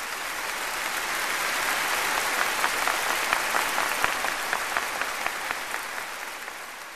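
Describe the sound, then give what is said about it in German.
Audience applause for a young performer: dense, even clapping that swells gradually and stays steady, with a few sharper peaks of claps near the end. “Das Publikum spendete reichlich Beifall, in den sich viele aufmunternde Zurufe mischten.”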